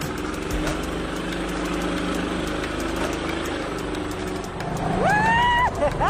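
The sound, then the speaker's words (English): A car engine idling with a steady low rumble that grows louder near the end, with a voice briefly heard over it. “Okay, remember, when you start a car, you got to put the key, you got to turn this on.”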